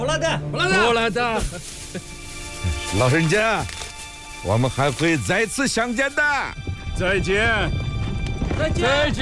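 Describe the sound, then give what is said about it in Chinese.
Hooves of horses kept by Kazakh herders clip-clop in a steady trotting rhythm, running under several people talking throughout. “这些马一时半会儿跑不快，把龙头给他们套上吧，孩子们。”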